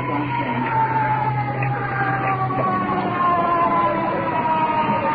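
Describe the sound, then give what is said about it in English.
An ambulance siren wails as the vehicle carrying an iron lung arrives, its steady, loud electronic tones sounding on their own with no voices. “Checking out the window. Ambulance with iron lung.”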